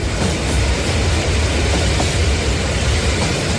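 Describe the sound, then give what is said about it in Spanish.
A departing train gives off a steady, loud rumble with broad hissing noise and faint clattering, holding an even level throughout with no voices. “el último tren está a punto de partir”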